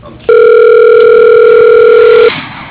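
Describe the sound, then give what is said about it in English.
A telephone dial tone, loud and steady, sounds while a call is being dialed. The continuous tone holds for about two seconds, then cuts off abruptly. “Okay, dialing.”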